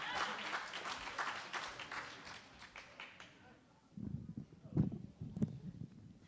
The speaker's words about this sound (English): Give her a round of applause. And for Dad Bod, give it up for Harry Riley, everyone.